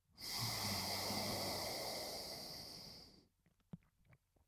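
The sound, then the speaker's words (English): A long, forceful exhalation through the left nostril during alternate-nostril breathing, a steady airy hiss of about three seconds that slowly fades, followed by quiet with a few faint clicks. “Let go of the left, press down on the right, breathe out through the left.”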